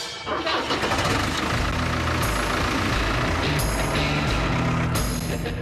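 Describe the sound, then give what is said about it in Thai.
A tractor engine starts up before heading out to feed birds, catching almost at once and settling into a loud, steady diesel rumble that runs throughout, with a few brighter rattling surges layered on top. “เอาล่ะผมกำลังขับรถแทรกเตอร์แล้วกำลังจะออกไปให้อาหารนกนะครับเพิ่มสารอาหารให้มันหน่อย สิ่งที่คุณต้องทำก็แค่เปิดเครื่อง”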